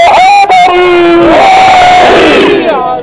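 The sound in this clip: A rally crowd of the Millat Jafaria organisations in Pakistan chants slogans in loud, sustained unison shouts, the massed voices holding long yelled notes across the whole stretch.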